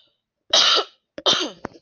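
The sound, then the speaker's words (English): Two harsh, raspy coughs go straight into a microphone from someone whose throat feels like it is closing up. The second cough follows a brief catch and ends with a small click. “But I do apologize about coughing into the mic.”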